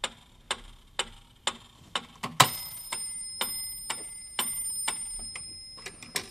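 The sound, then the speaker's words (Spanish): Metronome ticking at a steady pace of about two clicks per second, with many even ticks. A sustained high ringing tone enters partway through and carries on beneath the clicks. “Quieres Albéniz, pero no con el metrónomo.”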